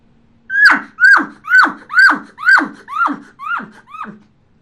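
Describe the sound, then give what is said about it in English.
A human voice imitates an elk cow call chuckle by mouth, without the call tube. Eight short, clipped yelps fall in pitch and follow each other in an even cadence, with the last few growing fainter. “you cut it in half, and all I'm going to do is make a cadence out of it. Inhale, exhale. As I inhale, I'm getting ready to push that same air out again. Once again, without the tube, sounds like this.”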